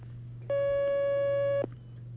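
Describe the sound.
A single steady telephone line tone sounds for about a second as a call comes in, clear and mid-pitched, over a constant low hum that continues before and after it.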